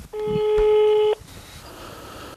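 Ringback tone of an outgoing phone call to a mother that goes unanswered: one steady electronic tone lasting about a second, then a pause of low hiss, with the next tone just starting at the very end.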